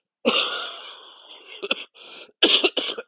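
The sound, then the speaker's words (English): A long, rasping cough of over a second, followed by a few shorter, sharp coughing bursts, harsh and breathy, with no talk over it. “that was a long cough”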